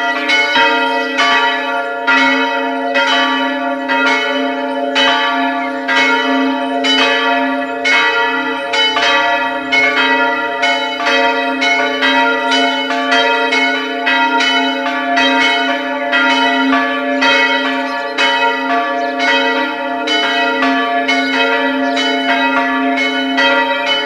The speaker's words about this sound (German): Es ist 12 Uhr. Sie hören die Glocken der Pfarrkirche Aschach an der Donau in Oberösterreich.